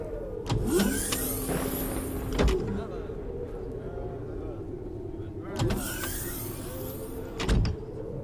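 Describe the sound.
A sci-fi effect of a motor car vanishing in stealth mode: two matching bursts of whirring, sweeping tones with sharp clicks over a steady low rumble, the first near the start and the second in the latter half.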